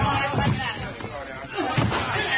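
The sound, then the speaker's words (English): People break in a locked door during a fire, with a few heavy thuds and slamming crashes over a dense, rumbling background. “We've got to break that door in.”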